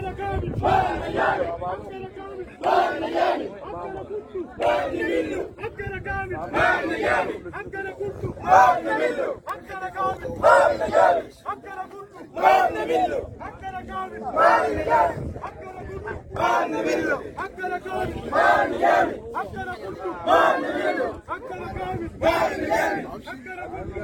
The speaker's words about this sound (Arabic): وردد المحتجون هتافات تطالب بالإسراع في تأهيل الطريق الذي يربط بين الطريق القومي وقرية أبكشما بمحلية وسط القضارف